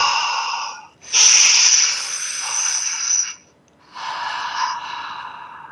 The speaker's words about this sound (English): You can purse your lips. It sounds like this.